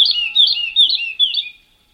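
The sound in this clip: Lark singing: bright, high warbling song in four quick repeated phrases, loud and alone, fading out shortly before the end.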